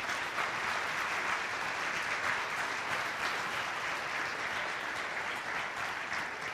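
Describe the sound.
Audience applause at a church service welcomes a speaker onto the stage, a steady, dense wash of clapping that holds evenly for the whole stretch at moderate volume.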